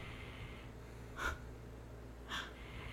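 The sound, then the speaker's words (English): A dog snores in two soft, faint snorting breaths about a second apart, each a brief nasal rasp over a steady low hum. “I don't know if you can hear this, but my dog is like snoring in the background.”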